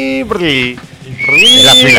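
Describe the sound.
A voice imitates a knife grinder's pan-flute whistle with bright, sliding whistle-like tones. The pitch climbs noticeably partway through and then holds high and steady.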